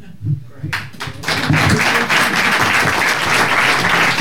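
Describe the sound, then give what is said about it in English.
A live audience applauds at a football discussion show recorded in front of a crowd in Birmingham. A voice is heard briefly, then scattered claps quickly build into loud, sustained clapping. “More ovations tonight than we know what to do with.”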